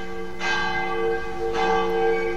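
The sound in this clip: A church bell rings at seven in the morning to call people to mass. Two loud, resonant strikes about a second apart each flare brightly, then settle into a sustained, shimmering ring.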